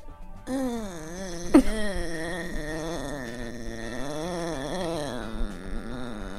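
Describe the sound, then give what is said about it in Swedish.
A human voice imitates a long, drawn-out moaning exhale, the unconscious groan a man makes while eating. The single moan is sustained for about six seconds, its pitch wavering up and down, with no other talk. “Som är som en lång utandning i kombination med ett stön som sker.”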